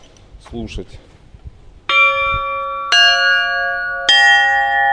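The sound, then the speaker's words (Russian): Bells tried out one after another while choosing bells for a belfry: three loud, clear strikes, each with a bright metallic attack and a long ringing tone that sustains until the next. A brief softer sound comes before the first strike. “чтобы построить звонницу, надо определиться, какие взять следующие колокола”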